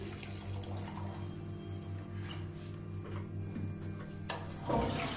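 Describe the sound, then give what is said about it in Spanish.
Water runs at a bathroom sink while hands are washed with soap. A faint, steady rush plays over a low hum, with a brief louder splash near the end. “Gira hacia el lavabo, se lava las manos con jabón.”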